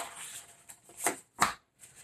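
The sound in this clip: Tarot cards are shuffled and drawn, with soft, papery riffling and two crisper slaps of cards against the deck. The handling is quiet, with no talk.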